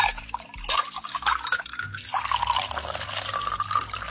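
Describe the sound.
Ice cubes drop into glasses: a few sharp clinks over a wet, trickling liquid sound, moderately loud and with no talk.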